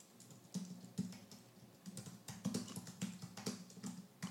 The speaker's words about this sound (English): I'm going to type in a property here.